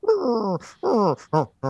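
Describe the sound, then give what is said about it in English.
A voice imitates a sleeping dog whimpering while dreaming: four short, whiny, falling whimpers in quick succession, each a little shorter than the last. “Clue is doing that whimpery dog thing they do when they sleep, where they're like chasing rabbits in their dreams”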